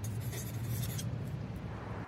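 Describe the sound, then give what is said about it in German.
A pen scratches on a slip of paper as a short note is written: faint, steady scribbling over a low hum for about a second, then a quieter rustle. “Hoffentlich holt sie auch einen Zettel und Stift. Nicht, dass ich es jetzt ganz versaut habe. Ich schreibe auch Hi.”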